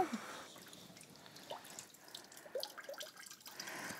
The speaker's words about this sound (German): Minimal abtropfen lassen.